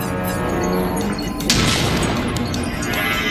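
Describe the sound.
Firing of a Sherman tank's short-barreled gun launching a white phosphorus smoke shell, heard as a dense, continuous roar of noise with a sharp crack near the middle.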